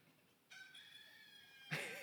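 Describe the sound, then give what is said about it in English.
A rooster crows at a friend's house in a Colorado farming community: one long, harmonic-rich call that swells louder near its end. “they had a rooster. And at 3 in the morning, I would hear,”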